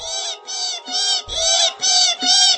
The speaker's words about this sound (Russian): Ястребята заверещали, потянулись за лакомством, но мать строго их остановила.